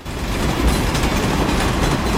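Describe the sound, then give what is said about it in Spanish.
Train noise: a steady, loud broad roar with a heavy low rumble that holds evenly throughout, without clear breaks. “Pasajeros al tren de Pequeño Ternasco. Esto se pone en marcha y no para.”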